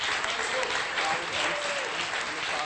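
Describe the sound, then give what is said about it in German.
Applause from a church audience: dense, steady clapping that fills the whole clip at an even level, with a voice faintly audible underneath. “Ein Applaus für unsere neue Familie vom Herrn.”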